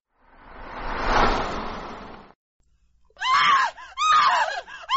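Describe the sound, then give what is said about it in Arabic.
A woman's scream from a horror story, one long, loud, harsh shriek that swells and fades over about two seconds, then after a brief silence a couple of shorter, tonal cries. “كنت في الحمام عندما سمعت الصرخة الأنثوية بالخارج. لم تكن صرخة سلمة، لكني على الأقل أعرف أنها صرخة أنثى تذبح أو تنتزع عيناها.”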